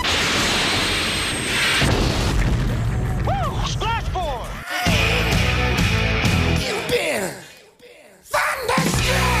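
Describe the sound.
Missile launch from a fighter jet: a loud, dense blast of booming bursts and rushing, sweeping whooshes that continues almost throughout, with a brief sharp drop in level near the end before it surges again.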